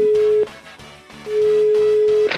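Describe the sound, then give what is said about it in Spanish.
A telephone ringing tone sounds while a call is dialed: a steady mid-pitched tone ends after about half a second, then after a pause a second, longer tone of about a second plays, over steady background music. “Sí, le estoy marcando. Lo que pasa es que no tengo que decir estoy marcando para estarle marcando. Pero esta es la señal de que está marcando.”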